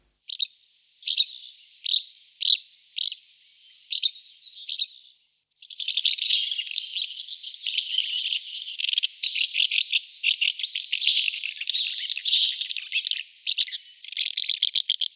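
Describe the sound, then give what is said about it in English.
House martin calls: a few spaced, buzzy chirps, then a long, dense run of rapid twittering chatter that carries on to the end. The calls are bright and high, with no voices. “House martins blow merry aerial raspberries.”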